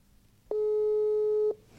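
A telephone busy signal sounds during a call: one steady, mid-pitched electronic tone holds for about a second, then stops, alone against faint background hiss.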